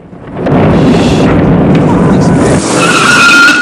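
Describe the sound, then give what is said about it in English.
A car drives away with its tires skidding loudly. A sustained roar and screech builds in, and a high, whining squeal rises near the end. “Frightened Jesse drives away.”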